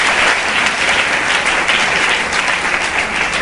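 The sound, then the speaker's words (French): A church audience applauds loudly in praise of God, a thick, continuous crackle of many hands clapping at an even, strong level from start to finish. “Est-ce qu'on peut encore acclamer très fort le Seigneur notre Dieu?”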